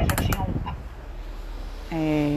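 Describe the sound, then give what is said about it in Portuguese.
A bedroom door is pulled shut with a quick cluster of knocks and clicks, then the room falls quiet before a steady tone sets in near the end. “Deixa eu só fechar aqui a porta do quarto, porque eu gosto de assistir a CNN.”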